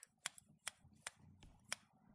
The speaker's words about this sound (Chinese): 剪刀划过主人的发丝上，会发出很好听的修理声呢。